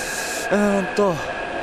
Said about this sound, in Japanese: また列車来たね。これね、一部地下鉄なんですけど、車両が広い、でかい